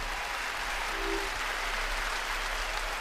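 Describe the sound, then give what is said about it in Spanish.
Concert audience applause, a steady dense wash of clapping at moderate level for a few seconds with no voices over it. “Demasiados aplausos eran pocos.”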